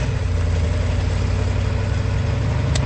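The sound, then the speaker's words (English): A police car engine pulling to the side of stopped traffic at a road repair: a steady, low, humming engine rumble at an even loudness throughout, with no talk. “pulls the police car to the side of the stopped traffic and proceeds.”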